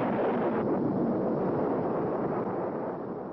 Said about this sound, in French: L'explosion de la bombe Sedan fait partie des 928 essais nucléaires menés par les États-Unis dans ce désert, situé à une centaine de kilomètres à peine de Las Vegas.